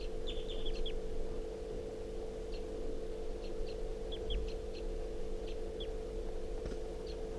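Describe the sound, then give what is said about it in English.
Wild bird chirping in short high calls: a quick cluster early on, then scattered single chirps, fairly faint over a steady low hum. “This is a wild bird.”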